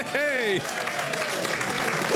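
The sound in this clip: An audience applauds to welcome a comedian onto the stage, a dense, steady patter of clapping that continues throughout, with a voice speaking over it at the start.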